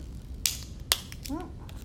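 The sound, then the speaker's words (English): A stapler fastens material to hold it in place, giving two sharp, crisp clicks about half a second apart. A voice briefly sounds afterward over a low background hum. “Okay, so I'm using my stapler just to hold it in place.”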